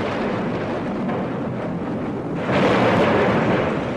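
Thunder and lightning sound effect in a dramatized mythological story, a continuous broad rumbling roar that swells louder partway through and stays heavy to the end.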